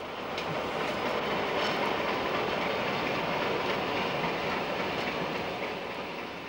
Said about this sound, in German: Ebenfalls unterwegs im Pendelverkehr für die Geburtstagsgäste die Diesellok V36406 aus den Anfangsjahren der Deutschen Bundesbahn.